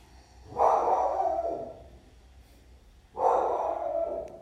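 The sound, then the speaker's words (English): Slow breathing in and out during a breathing exercise: two long, airy breaths separated by a quiet pause, each rising quickly and trailing off gently, fairly loud and with no talk. “So again, let's try this. Inhale. Exhale. Inhale.”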